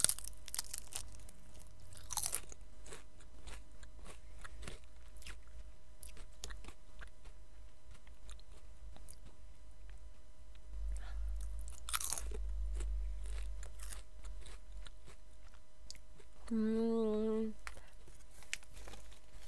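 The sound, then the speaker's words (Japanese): Potato chips crunch and get chewed: sharp, crisp bites land at scattered intervals between quieter, steady chewing, and a brief hummed voice rises near the end. “ポテチは止まらないな。”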